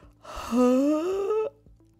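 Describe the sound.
A drawn-out yawn from a dad waking up sleepily: a single voiced, moaning breath lasting about a second, its pitch rising steadily before it stops abruptly.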